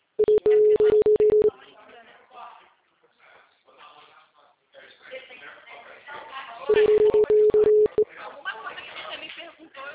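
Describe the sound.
Telephone keypad dialing tones sound as two bursts of rapid, steady beeps placing a call, with voices and background noise between the bursts.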